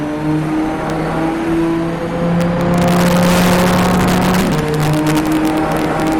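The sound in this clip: Race car engine accelerating hard out of a hairpin, a loud, steady droning roar with strong tonal harmonics that swells partway through, with a brief dip in pitch late on.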